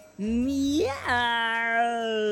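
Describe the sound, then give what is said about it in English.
A voice imitates a cat's meow, a single drawn-out vocal tone that swoops upward in pitch midway, then holds steady and bright, loud and alone. “promise me you'll never try to meow ever again.”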